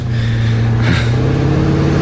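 A car engine runs loudly and steadily with a low, droning hum and a brief surge of revs partway through. No voices are heard.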